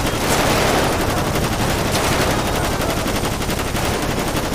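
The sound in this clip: Loud gunfire in the police video game FivePD: rapid automatic bursts pour out in a continuous, dense rattle that barely lets up, with no talk over it.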